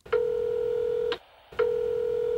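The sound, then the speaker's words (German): Two long, steady electronic beeps from a telephone answering machine sound before a recorded message. The second follows a short silent gap, and both are clear and heard alone. “Sie hören eine Nachricht auf dem Anrufbeantworter.”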